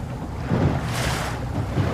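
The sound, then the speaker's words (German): A small boat moves across open water, with a steady low rumble and a broad wash of wind and water noise. It swells slightly louder around half a second in and again near the end. “sitzt in einem kleinen Boot, nimmt Kurs auf seinen ehemaligen Dienstort.”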